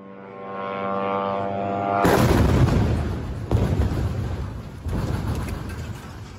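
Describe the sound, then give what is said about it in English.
A residential tower in Gaza explodes in a night airstrike. A steady humming engine drone gives way to a sudden, massive roaring blast, then two further booming bursts rumble on loudly, with no voices. “Journalist Faiz Kureka shot this video of the moment the building exploded.”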